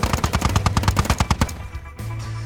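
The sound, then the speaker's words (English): Chain gun firing in a video game: a rapid, evenly spaced burst of many loud shots for about a second and a half. The fire cuts off abruptly, and a steady low hum remains. “Our line won't hold. The chain gun is tearing through us.”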